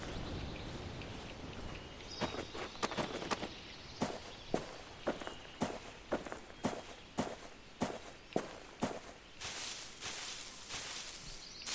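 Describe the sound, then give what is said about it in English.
Footsteps of a character walking in a video game: many soft, evenly spaced steps in a steady rhythm over a faint hiss, with no talk. “I'm walking.”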